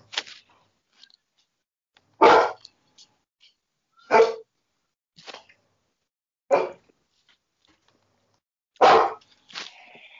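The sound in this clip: A dog barking in a few sharp, loud, separate barks spaced roughly two seconds apart, with a couple of softer yips between them and quiet gaps in between.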